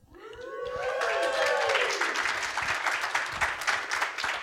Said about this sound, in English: So it's a special live event with an audience, as you hear